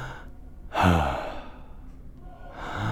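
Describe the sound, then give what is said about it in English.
A voice imitates breathing for a piece sung by an amateur choir, producing two breathy sighing gasps: a strong one followed by a softer one after a pause. “there is one piece where I work with the breath, where it goes like.”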